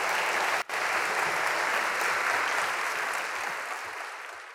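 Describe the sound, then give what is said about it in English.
Sustained applause from a church audience at First Methodist Houston, standing to welcome a police chief: a dense, even wash of clapping that holds steady and tapers slightly toward the end. “And let's give him a standing ovation as he comes and is with us today.”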